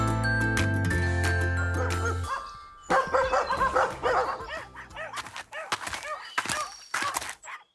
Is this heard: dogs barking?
yes